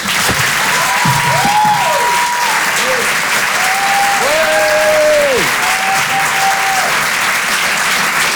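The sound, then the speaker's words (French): Loud, sustained applause from a comedy club audience for a stand-up comedian, with shouts and whoops rising above the constant clapping. “Vous pouvez l'applaudir très fort, Miri sur Rire et Chanson.”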